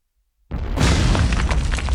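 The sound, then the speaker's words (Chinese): A sudden explosion bursts outside a door: after a brief silence, one loud boom breaks in and carries on as a dense, heavy roar to the end. “门外突然传来爆炸声”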